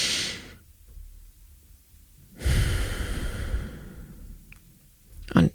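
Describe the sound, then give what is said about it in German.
Slow, deliberate breathing from a breathing exercise of five counts in and three counts out: a short breath at the start, a quiet pause, then a longer, louder airy breath of about two seconds, ending with a brief sharp intake. “ich sage, ich atme einfach 5 Sekunden ein und 3 Sekunden aus”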